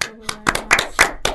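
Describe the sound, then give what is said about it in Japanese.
A few people clap in a quick, uneven run of sharp, loud claps lasting just over a second. “何の拍手だと。”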